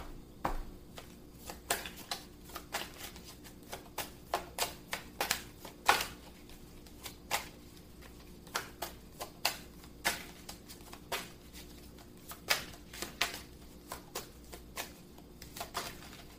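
Tarot cards being shuffled and drawn: many crisp, irregular card snaps and soft slides, fairly quiet and with no talk.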